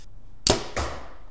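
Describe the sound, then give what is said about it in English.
An archery bow is drawn back with an arrow, giving two soft breathy swishes, the first sharper and the second longer and fading, with no talk. “do you have another arrow that you can just draw back with so I can record?”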